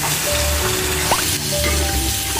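Pig trotters stir-frying in a wok give a steady, dense sizzle that runs throughout, with faint stirring sounds mixed in.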